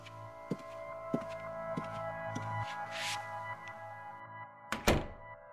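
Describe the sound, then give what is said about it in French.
A door closes, preceded by a few soft, dull knocks and ending in one louder, sharper thud, faint overall with no voices. “Watson attendit que la porte fût close pour se tourner vers son compagnon.”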